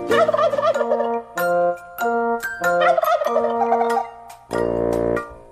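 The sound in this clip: Turkey gobbling: several loud, warbling, tonal bursts separated by short pauses, with the last call lower and more sustained.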